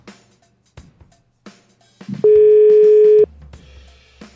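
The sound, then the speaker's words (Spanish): A single telephone ringback tone sounds while a call is being placed, a steady, loud beep lasting about a second, with faint handling noise before it and a low hum after. “el teléfono tiene súper poca batería, así que a lo mejor se nos va a cortar, pero bueno, esperemos a que nos conteste. A ver. Eh, Ahí está marcando.”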